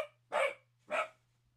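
A dog barks twice, two short, sharp barks about half a second apart, fairly faint, over a low steady hum with no talk.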